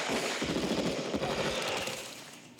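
Rapid video game gunfire rattles in a dense, continuous burst of many overlapping shots, loud and steady before gradually dropping off in the final second.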